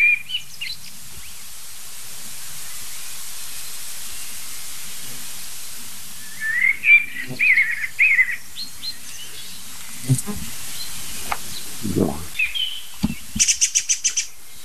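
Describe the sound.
Blackbirds sing in bursts of fluting, warbled phrases broken by sharp high chirps and quick clicking notes. The calls come and go over a steady soft hiss, with no voices.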